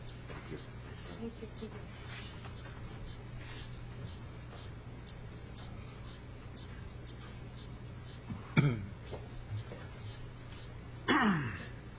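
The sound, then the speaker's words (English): A testifier clears his throat at a committee hearing. There are two short, rough bursts, the second slightly longer, late in an otherwise faint, quiet stretch. “Sorry, I had something in the back of my throat there.”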